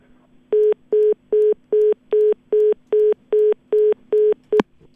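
A telephone busy tone sounds after the other caller hangs up: about ten steady, mid-pitched beeps in an even rhythm, with no talk, ending with a brief click.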